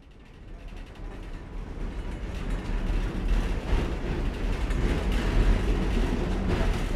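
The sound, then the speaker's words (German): A rattling Soviet-made tram rides through Lviv, giving a dense, continuous clatter and mechanical rumble that builds slightly and holds steady over seven seconds, with no voices. “In Begleitung des Historikers Andriy Usatsch geht es in einer ratternden Tram aus sowjetischer Produktion von der schönen Altstadt Lwiws”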